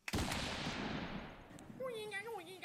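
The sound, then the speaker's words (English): A gunshot sound effect: a sharp blast with a long, noisy tail that slowly decays. A voice starts talking over the fading end. “That sounds like a bullet. That's the only thing that comes up whenever I look up gun.”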